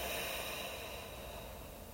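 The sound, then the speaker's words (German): A deep breath taken into the belly and let out through the mouth during a guided relaxation exercise: a soft, airy rush of breath that stays steady and even throughout, with no talking. “Atmet einmal tief in den Bauch ein und lösend durch den Mund wieder aus.”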